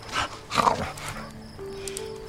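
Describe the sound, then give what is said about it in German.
A dog makes a few short, low, rough vocal bursts, then a thin high sustained tone, faint and brief. “Ah, ein Hund. Und der tut wirklich nichts.”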